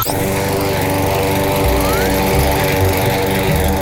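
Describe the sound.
A lawn mower cuts grass at about 6 a.m. beside an apartment block. Its engine drones steadily and loudly throughout with a rough, buzzing hum and no pauses.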